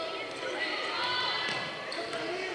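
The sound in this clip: Basketball dribbled on the right side during a game, the repeated bounces of the ball set under a steady wash of crowd noise.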